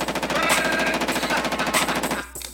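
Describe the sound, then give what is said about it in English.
Steyr AUG assault rifle, Austrian-made, firing a long, rapid automatic burst of evenly spaced loud cracks that stops abruptly near the end. “Oh, check out this gun here. Now, this here is a Steyr AUG. Steyr AUG's a bad motherfucker. Listen.”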